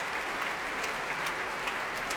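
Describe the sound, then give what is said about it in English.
Applause from a large late-night concert audience after a Tallis Scholars choral performance led by Peter Phillips. The clapping is dense, steady and even throughout, with no pauses or voices. “Very large and, as you can hear, very appreciative late-night audience for this”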